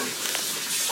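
Dishes being washed by a man at a sink: a steady, dense hiss of running water and scrubbing, fairly loud and unbroken for about a second, with no talk.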